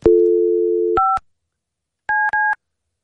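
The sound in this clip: Touch-tone telephone dialing of 00: a steady low dial tone is cut off by a short two-note keypad beep, then after a pause a quick pair of identical beeps sounds, all loud and clean with no talking.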